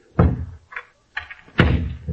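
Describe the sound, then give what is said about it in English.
A few heavy wooden thumps as doors are shut in a chateau study, two of them louder and fuller than the lighter knocks between them, with no talk over them. “A moment. I close the doors.”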